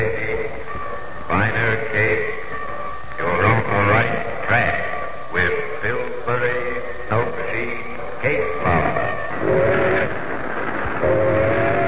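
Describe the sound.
A train running on rails toward Grand Central Station, a loud, continuous rumble with layered tonal blares running through it.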